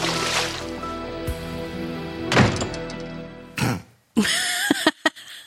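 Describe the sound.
A cane thrown into a swimming pool during a dramatic scene makes a couple of sharp, splashy thuds over a dense, steady background, followed by a few brief knocks.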